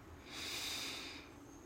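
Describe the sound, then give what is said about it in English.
A slow, deep breath is drawn in during a guided breathing exercise, filling the belly and ribs. The faint, airy hiss swells and then fades away. “Allow yourself to take a slow and low breath, filling up your belly and ribs. You can join me now for a deep, full breath”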